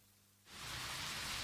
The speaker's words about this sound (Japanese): 今日で3日連続雨か。